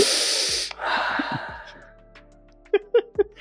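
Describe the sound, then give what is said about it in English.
A deep, noisy inhale voiced by a person acting out wafting fumes from a stirred brew, two breathy rushes in a row, followed by three short, sharp clicks. “Deep inhale, just waft.”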